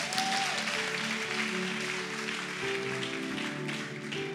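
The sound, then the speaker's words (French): A church audience applauds to acclaim the Lord during a worship service, a dense, sustained wash of clapping that stays loud and even throughout. “Si tu es d'accord, il faut acclamer le Seigneur.”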